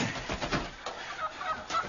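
A live chicken about to be killed gives short, throaty clucks and squawks, a few brief calls set over a rough, rustling background of moderate loudness.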